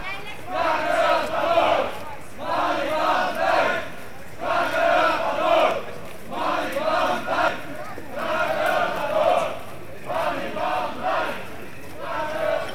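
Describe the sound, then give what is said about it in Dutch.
A crowd of squatters shouts and chants at a street protest in Utrecht: many voices rise together in loud, rhythmic bursts that repeat in a steady cadence with short gaps between them. “Zoals je kunt horen, Malibaan vrij kraken gaat door in Utrecht.”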